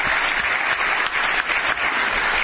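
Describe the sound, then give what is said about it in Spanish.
Applause from an audience at an awards ceremony, a steady, dense wash of clapping that holds loud and even throughout, with no voices over it. “Ese aplauso, claro que sí, para la gente que se esfuerza.”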